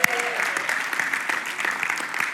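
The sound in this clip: Applause from a church audience: dense, steady clapping at an even loudness throughout, with a voice heard briefly at the start.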